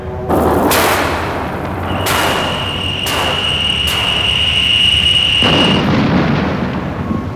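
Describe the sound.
Space fighter weapons fire in several sharp, booming blasts over a continuous rumbling drone, with a steady high electronic whine running through the middle stretch; no voices.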